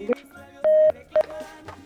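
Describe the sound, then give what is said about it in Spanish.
A telephone number is dialled on a touch-tone keypad. Three beeps of uneven length sound: a short one, a longer held tone, then another short beep, with faint voices underneath. “ya le estamos marcando”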